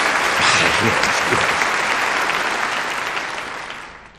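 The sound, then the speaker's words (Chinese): Audience applause welcoming the start of a military entertainment troupe's performance for naval carrier-aircraft test personnel; full, dense clapping that holds strong, then gradually fades away toward the end. “大家鼓掌，欢迎演出正式开始。”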